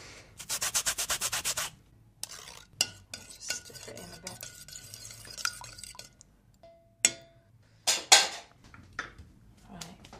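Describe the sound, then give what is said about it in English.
Lemon zest is grated on a grater straight into a pan: a fast run of many even, rasping strokes, then scattered clinks, taps and clatter of kitchen utensils. “I'm just grating it straight into the pan. Oh, I can smell that lemon”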